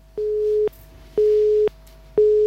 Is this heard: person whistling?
no